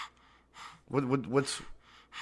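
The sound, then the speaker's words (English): Heavy, stressed breathing from someone tense while watching a SmackDown wrestling match: a few short gasping breaths with a louder, strained voiced stretch in the middle, creepy enough to be likened to Jason from Friday the 13th. “When you stress out, you breathe like Jason from Friday the 13th movies? Because that's what it sounded like.”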